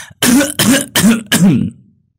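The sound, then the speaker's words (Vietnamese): An elderly woman coughs a long bout of four harsh, throaty coughs in close, even succession. Each is loud, and the last tails off into quiet. “Bà cụ ho lên một tràng dài.”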